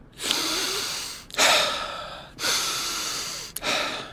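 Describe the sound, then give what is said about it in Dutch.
Breathing in and out during a relaxation exercise: four long, airy breaths in steady alternation, each about a second long, separated by brief pauses. “Adem in en adem uit. In en uit.”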